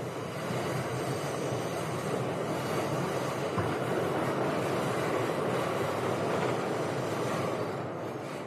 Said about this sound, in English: now we're going to take the subway over to the One Station Square here in Queens